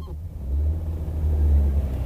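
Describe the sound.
A car engine rumbles low and steady as a car drives off back toward a railway station, in one short, continuous stretch without voices.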